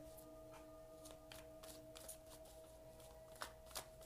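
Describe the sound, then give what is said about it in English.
Tarot cards shuffled during a reading, a faint, steady papery riffle with a couple of sharper snaps near the end, over a soft constant hum. “Let's get a few more cards.”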